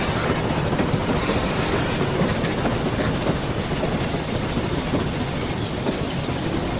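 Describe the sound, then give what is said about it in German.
A train brakes with a dense, loud rolling rumble that continues without a break, and a faint high-pitched squeal appears in the latter half. “Der Zug bremst ab.”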